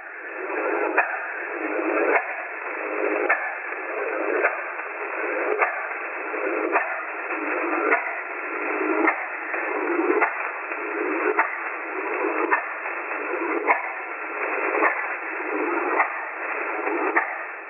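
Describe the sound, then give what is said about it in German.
The radio station known as the Stalingrad Clock gives a constant, pendulum-like ticking. Evenly spaced pulses come roughly once a second through band-limited radio hiss and continue steadily throughout. “kann da ein ständiges Ticken hören, das im Klang an eine Pendeluhr erinnert. Und das gab dem bekannten Sender den Namen The Stalingrad Clock. Und ja, genau so hört es sich an.”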